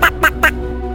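Ducks quack three times in quick succession, each a loud, nasal call, then fall quiet.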